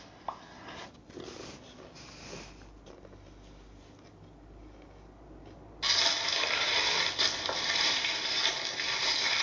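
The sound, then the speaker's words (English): Large family-sized Lay's potato chip bags crinkle and rustle as they are opened. The sound starts as soft, intermittent crackling, then becomes a loud, continuous crinkling rustle for the last few seconds. “He has opened four gigantic family-sized bags of Lay's potato challenge.”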